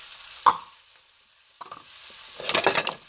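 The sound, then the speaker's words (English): A spoon stirs a thick, rich, creamy mixture into vegetables in a pan. There is one sharp scrape at the start, then a few soft scrapes, and it ends with a longer burst of wet, sloshing stirring. “I'm just going to put it in there, and I'm going to stir this around.”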